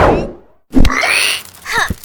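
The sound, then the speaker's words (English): A sharp thwacking hit from a flip kick striking an enemy, a sound effect in an audio drama, lands loudly after a brief lull, followed by a swirling whoosh and then a second, softer thump. “I bet you never seen someone flip into a kick like that before. Maybe I'll call it the Kamina kick.”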